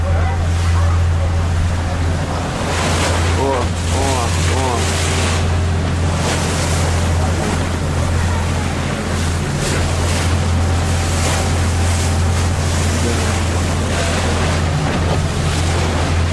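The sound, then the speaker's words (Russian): Wind and waves buffet a small motor boat as it rocks, making a constant loud roar of surf and wind noise over a steady low engine drone. “Катерок наш качает.”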